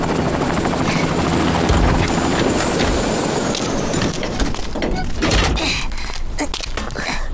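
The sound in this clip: Loud, steady rotor roar of a helicopter coming in to land, holding a dense, even drone through the whole clip with faint rattling texture on top.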